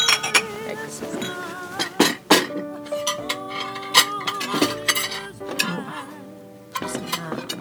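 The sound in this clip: Wine glasses clink during a Christmas toast, several bright clinks scattered among voices talking over them.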